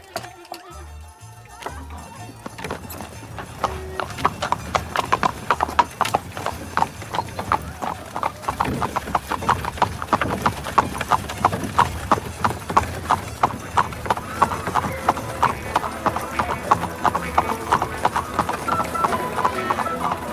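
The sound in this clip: Horse hooves clip-clop as a horse-drawn carriage sets off during a carnival in Rome, a fast, steady run of many hoof strikes beginning after a couple of seconds and continuing to the end over a dense, busy background.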